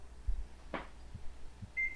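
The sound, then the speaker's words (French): Microwave oven beeping as it is stopped, a single short high-pitched tone near the end, preceded by a few faint soft thuds and a brief click, all quiet. “Je vais arrêter le micro-ondes de la mort parce que j'ai un autre appel.”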